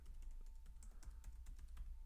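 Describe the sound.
Someone types a password on a computer keyboard: a quick, irregular run of soft key clicks, faint and with no talk.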